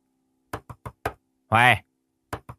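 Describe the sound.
A woman bangs on a closed bedroom door: four quick knocks, then a short loud vocal call, then two more knocks, all sharp and distinct.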